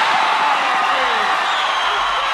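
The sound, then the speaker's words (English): Boxing crowd cheering and roaring before a fight as a fighter enters the ring and plays to the crowd. A dense, steady roar runs throughout, with a voice over it. “The crowd anticipating a great fight now as Apollo is in the ring. He's playing to the crowd.”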